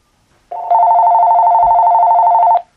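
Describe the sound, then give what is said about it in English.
A telephone rings during a lecture: one sustained, steady electronic ring of about two seconds that starts softer, then turns loud and even before cutting off abruptly, with near silence around it. “I apologize for the phone. I'm going to turn the phones off right now.”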